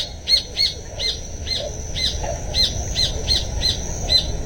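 Birds singing among trees: many short, high chirps repeat in a fairly steady rhythm over a constant low rumble of background noise.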